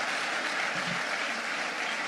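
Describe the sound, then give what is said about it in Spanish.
Church audience applauding for fellow teammates during a service: dense, continuous clapping holds at a steady, fairly loud level throughout, with no distinct talk. “Denme un aplauso a esos coequiperos.”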